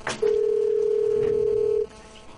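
An outgoing phone call's ringback tone while dialing someone in Madrid: one unbroken, steady mid-pitched beep lasting about a second and a half, then quiet.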